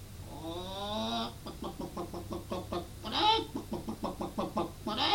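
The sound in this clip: A human voice imitating hens clucking: a drawn-out, wavering cry, then a rapid run of short rhythmic clucks, another loud squawk and more clucking, over a low steady hum.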